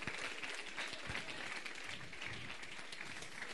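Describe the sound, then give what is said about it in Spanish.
Faint audience applause at a youth church camp gathering, a soft, continuous wash of clapping lasting the whole short clip without any clear voices. “Le damos un aplauso a Anthony que vino desde Perú.”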